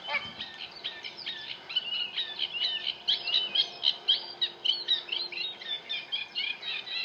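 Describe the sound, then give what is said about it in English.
Roosting sand martins call from deep inside thick reeds at gravel pits, a dense, scratchy stream of many short rasping chirps and chatters that pulse unevenly but keep going the whole time, with no voices. “It took ages for us to work out that it's the sound of sand martins roosting.”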